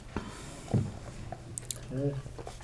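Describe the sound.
A big gulp of beer from a glass, with a few faint wet swallowing and slurping sounds spread across a quiet moment.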